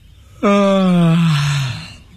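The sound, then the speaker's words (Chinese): A performer voices a tea-shop assistant's long yawn in a radio story. A single loud, drawn-out voiced yawn starts abruptly, then slowly falls in pitch and fades, with nothing else heard around it. “伙计打着哈欠问”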